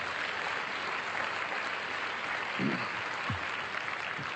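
An audience at a campus gathering applauds to welcome a visiting representative. The clapping is even and continuous throughout, with a few low thumps partway through.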